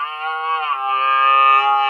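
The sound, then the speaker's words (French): A phone ringtone that imitates a stag's rutting bellow plays as one loud, sustained, buzzy harmonic tone, holding a steady pitch for about two seconds without a break. “Une vache parmi nous? Un cerf. Ah, un cerf. Le brame du cerf.”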